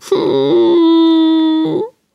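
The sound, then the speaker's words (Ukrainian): A voice imitates a crying, wailing painted Easter egg with one long, loud, sustained wail that holds a steady pitch before breaking off, heard without other talk. “Яєчко почало плакати.”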